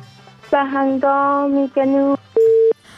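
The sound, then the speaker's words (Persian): A busy signal follows a phone call that was cut off. A few buzzy, evenly pitched tone pulses play, and the last is a purer, cleaner beep. The tones are loud and heard alone. “خب تماس سر قیاسی قطع شد متاسفانه.”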